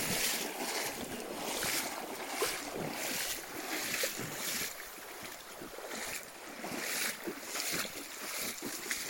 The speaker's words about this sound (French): Il faut traverser, c'est une petite rivière.